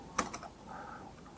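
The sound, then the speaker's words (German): Faint typing on a computer keyboard as a URL is entered: a few quick, light key clicks at the start, then quiet hiss. “eine URL eingebe, wenn ich mal richtig tippen kann.”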